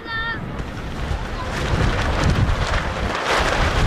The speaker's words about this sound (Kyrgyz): Удурган шамал жападан жалгыз башпаана эсептелген түркүн түстөгү чатырларды далбактатып учуруп кетчүдөй туюлат.